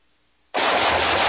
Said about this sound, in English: Woo. Nice shooting.